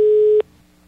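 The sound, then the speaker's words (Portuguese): Tail of a ringback tone on an outgoing telephone call: a steady, loud mid-pitched electronic tone that stops abruptly after a fraction of a second, leaving faint low hum. “Rapaz, eu vou ligar de novo aqui, liga aí só pra eu... Rapaz, ele deu um ré tão grande, bucho de cobra aí. Vê se atende.”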